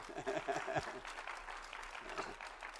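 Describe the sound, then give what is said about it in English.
Audience applause welcoming a couple home from vacation: a dense, steady patter of clapping that holds evenly throughout, with voices heard early on. “Oh, by the way, we have the Hoopers back from vacation. Let's give them a hand. Welcome home.”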